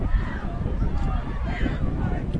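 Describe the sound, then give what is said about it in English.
Strong wind at a football stadium, a low, rumbling buffeting roar that persists throughout beneath a commentator's talk. “I don't know if you can hear the wind, but it is incredible. Absolutely unreal.”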